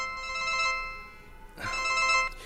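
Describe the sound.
A telephone rings with a steady electronic tone in two fairly faint bursts separated by a short pause, with no talk over it.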